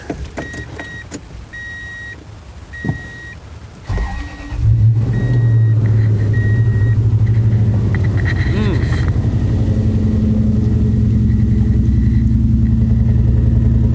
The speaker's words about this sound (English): what is that? It's a V8.